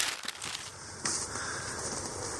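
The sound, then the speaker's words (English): Scrabbling steps and crumbling loose soil as someone climbs a steep dirt hill in a wildfire area with falling trees: a few sharp scraping bursts over a constant crackly, rustling texture. “And just climbing up the hill, as you're about to hear, is very, very difficult. In fact, I tried to do it myself.”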